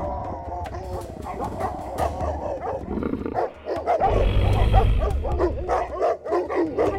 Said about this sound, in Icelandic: í þorpinu urðu varir við Takani löngu áður en fólkið sá þau og byrjuðu að gelta sem mest þeir máttu.